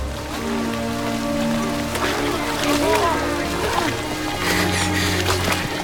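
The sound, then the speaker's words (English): Heavy rain pours down as striped-uniformed prisoners are marched across muddy ground, a steady, dense hiss of falling water that continues without break, with other low, murky sounds mixed in. “The rain pours down and their striped uniforms are soon drenched.”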